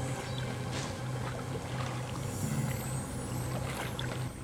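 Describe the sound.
Underwater ambience in a video game, a quiet, continuous muffled wash of water over a low steady hum, without distinct events or voices.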